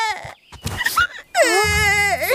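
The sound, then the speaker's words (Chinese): A child cries loudly after a favourite toy robot breaks. Some choked vocal sounds come first, then a sustained, high, wavering wail. “孩子别哭”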